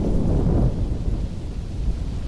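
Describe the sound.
Thunder rumbling as a steady, continuous low roll rather than a single clap, loud and sustained throughout with no voices.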